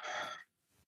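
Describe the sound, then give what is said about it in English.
A breath released out through the mouth during guided breathing, heard as one airy exhale that quickly falls away into a much fainter trailing breath. “I'm going to take another big breath in the nose. Release out the mouth.”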